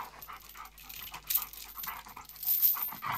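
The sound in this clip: A dog pants quickly before being leashed for a walk, a faint, steady run of breathy huffs with no voices.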